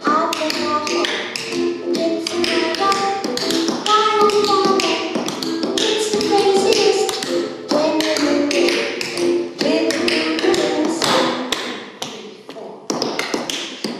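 Tap dancing shoes strike a hard floor in dense, rapid, irregular bursts of crisp clicks and heel thumps, loud and almost continuous throughout.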